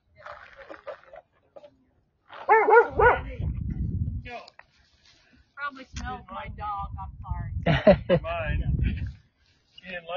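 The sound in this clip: A female dog barks a few times at a passer-by near a bridge. The short, sharp barks and yips come in bursts and are mixed with people talking and other background noise.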